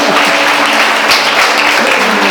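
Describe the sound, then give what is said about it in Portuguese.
Dense, steady applause from a church audience clapping for Jesus after a prayer, loud and even throughout with no voices standing out. “Você pode aplaudir a Jesus por isso.”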